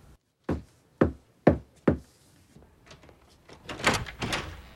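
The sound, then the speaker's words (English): Four firm, evenly spaced knocks on an apartment door, followed by softer scraping and rustling. “He knocks at his apartment door.”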